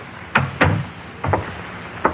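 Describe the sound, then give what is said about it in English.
An apartment door is closed with a few brief, sharp clunks and thumps, spaced irregularly with quiet between them. “Close the door,”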